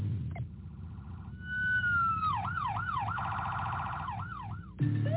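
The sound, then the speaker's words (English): Emergency vehicle siren from a unit responding to a two-vehicle head-on crash in Biddeford, shifting from a rapid pulsing pattern into long rising and falling wails, then a fast warble, then wailing again, loud over steady road rumble. “Do you know what to do when you hear an emergency vehicle approaching? Slow down. Signal. Move to the right as far as you can.”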